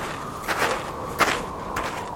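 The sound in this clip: Footsteps of someone walking a long route with wet feet land as a few soft, muffled steps over a steady background hiss.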